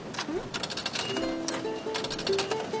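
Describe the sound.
Turning the crank of a 200-yen capsule toy vending machine makes a run of rapid, irregular ratcheting clicks. They are moderately loud and sit over a steady tonal background.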